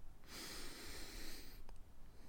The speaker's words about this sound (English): Now, take a deep breath in